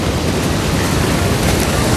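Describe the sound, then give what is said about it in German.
Waves washing on a beach, a steady, dense rush of surf noise that stays at an even loudness throughout. “Ricky begleitete Emma zum Strand. Die ersten Stunden sind am Strand, dabei wird man nicht nass.”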